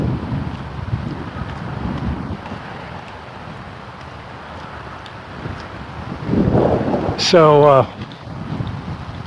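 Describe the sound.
A breezy wind blows outdoors during a walk on a sunny day, buffeting the microphone. The low, continuous rumble swells louder toward the end.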